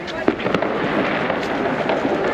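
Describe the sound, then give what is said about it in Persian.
Firecrackers and fireworks going off in a loud, dense, continuous crackle, with sharper pops and bangs standing out near the start over a steady wash of popping. “صدای ترقه و آتش بزنی هم که حتما میشنه.”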